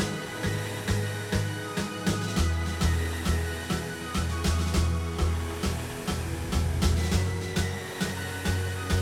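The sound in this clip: An indoor rowing machine (RowErg) in use during a coached workout: a steady airy whir with regular pulsing surges, accompanied throughout by a throbbing beat and low bass tones.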